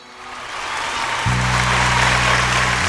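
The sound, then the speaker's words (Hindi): Loud audience applause at a gathering, answering a call for hearty clapping: dense, continuous clapping that swells from fainter to full, with a steady low tonal drone joining partway through. “आग्या बख्शो जोरदार ताली मार के”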